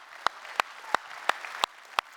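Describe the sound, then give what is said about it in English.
Applause from a church audience: six sharp, evenly spaced claps stand out over a steady wash of clapping noise. “Can you give yourselves a big hand uh, for being here today?”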